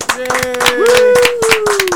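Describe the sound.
Hand clapping sends off a departing guest at the end of a show, a few pairs of hands beating briskly for about two seconds while a voice holds a drawn-out cheer over it.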